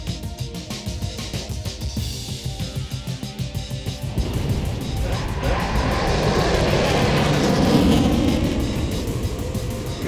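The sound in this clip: A fighter jet flies by, a broad mechanical roar with a rhythmic pulsing edge that swells louder after a few seconds and stays heavy to the end.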